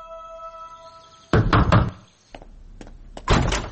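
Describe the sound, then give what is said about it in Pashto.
Knocking on a door by a visiting lawyer: a few loud, hard raps in a quick cluster, then quieter knocks, and a final firm burst. No voices. “څو ورځې وروسته د نظیم وکیل د قسیم دروازه وټکوله.”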